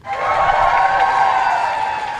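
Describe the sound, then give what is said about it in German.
Applause and cheers greet Ukrainian President Volodymyr Zelensky outside No. 10 Downing Street in London. The clapping builds at once and stays loud and steady for about two seconds. “Als Volodymyr Selenskyj vor die Downing Street Nummer 10 tritt, brandet Applaus auf. Der ukrainische Präsident winkt dankend.”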